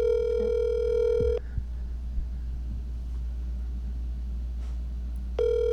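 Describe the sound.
Telephone ringback tone of an outgoing call: a steady, buzzy ring plays, stops for several seconds of low hum and line rumble, then a second ring begins at the end.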